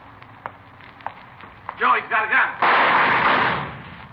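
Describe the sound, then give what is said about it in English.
Gunshots from a handgun fired during a confrontation with an armed suspect. A few sharp, fairly faint cracks come first, then a raised voice and a loud, sustained burst of rushing noise. “I saw him pull a gun, thought sure he got you. Well, he didn't miss by much.”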